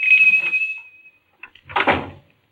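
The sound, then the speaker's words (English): A door is pushed open: a high, sustained squeak fades away, then after a short pause come a brief click and a louder, rumbling thud. “On a sudden impulse, he pushes open the door.”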